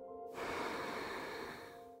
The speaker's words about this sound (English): So you feel your belly filling up with all of your special and unique powers. And then breathe out,